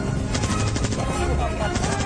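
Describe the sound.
Rapid repeating gunfire in a Wild West shootout, a dense, unbroken stream of overlapping shots that stays loud and steady throughout.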